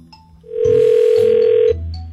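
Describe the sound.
A telephone ring tone sounds as a prank call is placed to a florist: one loud, steady, mid-pitched tone holding for about a second over a low hum, with no voices.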